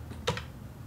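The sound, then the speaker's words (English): Two quick clicks from a computer keyboard while the number 5,000 is typed in and return is pressed, short and close together, faint against a quiet hum, with no talking. “okay, so I put in 5,000 and then I hit return.”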